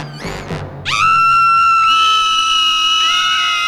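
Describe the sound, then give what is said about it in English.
People screaming together in fright over a suspected rat. After a brief noisy burst, a loud, shrill, high scream rises and holds steady for about three seconds. “All three of them scream.”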